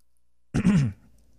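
A single short throat clearing, a gruff, rasping burst lasting under half a second, rises sharply out of near silence and fades into quiet.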